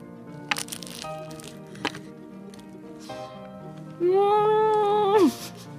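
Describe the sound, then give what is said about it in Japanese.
Biting into crispy, flaky pie pastry filled with custard cream gives two faint, sharp, brittle cracks a moment apart. A sustained hummed voice follows and wavers in pitch. “もうね、サクサクのパイ生地の中にね、めちゃくちゃ美味しいカスタードクリーム的なものが入っておりまして、ちょっと一口かじらせていただきますよ。”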